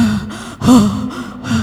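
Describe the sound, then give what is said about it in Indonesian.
A person takes deep, audible breaths: a few fairly loud, breathy and partly voiced gasps and sighs in quick succession, with no talk over them. “Siap, tarik nafas dulu.”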